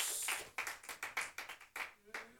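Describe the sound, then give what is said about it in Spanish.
A church audience clapping hands during worship, a faint, steady rhythmic beat of many hands striking together in time, repeating through the whole stretch. “Palmas fuertes al Señor.”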